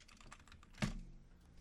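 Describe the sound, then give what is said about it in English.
Typing on a computer keyboard: a light run of faint keystrokes with one sharper, louder key click partway through, the clatter continuing softly afterward. “I got to type in Gaylord Fokker.”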